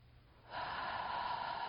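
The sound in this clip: A deep breath let out through the mouth: after a quiet half second, a steady, breathy rush of air begins and holds evenly to the end.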